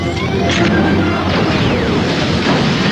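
A grenade explosion in a combat scene inside a building: a loud, dense blast of crashing noise that roars steadily through the whole moment without pause.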